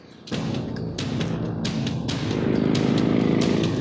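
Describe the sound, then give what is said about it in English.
A Harley motorcycle riding up in a film scene: a steady low engine rumble that swells somewhat louder toward the end, with a few sharp crackling bursts on top. “He just fucking rides up on like a Harley like it's no thing.”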